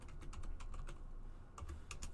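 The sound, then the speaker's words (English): Typing on a computer keyboard: a quick run of soft key clicks, a short pause, then a few more taps, all faint and with no talk. “Let's type this in really quick.”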